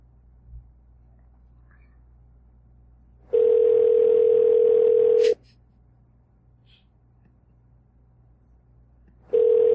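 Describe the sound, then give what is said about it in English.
Telephone ringback tone on an outgoing call: a steady mid-pitched buzz lasting about two seconds, a long silent gap, then the next ring starting just at the end. “Just gonna let it ring.”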